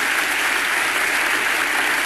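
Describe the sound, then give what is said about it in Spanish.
Ovation from an audience: loud, dense, steady clapping from many hands, sustained evenly throughout with no voices standing out. “Segunda ovación cuando habla de la paz desarmada y desarmante.”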